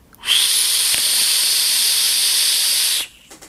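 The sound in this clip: Loud, steady airflow hiss from a rebuildable dripping atomizer vape with a chuff-style top cap: one continuous bright rush of air lasting about three seconds, starting and stopping abruptly.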